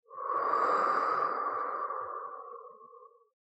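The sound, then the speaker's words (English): A single slow, drawn-out breath during a guided breathing exercise, soft and steady, swelling quickly and then thinning out gradually before it ends in silence. “Today, I want us to close our eyes and breathe in and out.”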